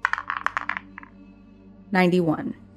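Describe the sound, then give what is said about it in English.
Dice rattling for a tabletop game power roll: a quick burst of light clattering clicks, then a short pause and a brief voice. “Let's find out. Give me a power roll for Ellie.”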